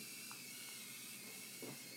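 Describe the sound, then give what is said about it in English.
A radiator heater hisses and wheezes, giving a faint, continuous, airy hiss that stays steady throughout with only slight flickers. “It's our heater. It's our radiator. Yeah, the radiator.”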